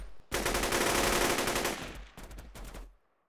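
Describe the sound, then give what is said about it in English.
Gunfire is exchanged between fighters at a trench: a long, loud burst of rapid automatic fire rattles for over a second, thins out, then a few separate sharp shots ring out before silence. “A moment later, both of them fired.”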